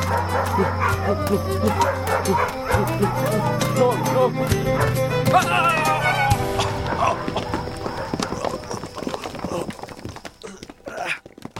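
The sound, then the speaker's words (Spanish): Dogs barking and yipping as they are set loose to chase someone, many rapid, excited barks mixed with voices over a busy background, the commotion thinning out toward the end. “¡Suelten los perros!”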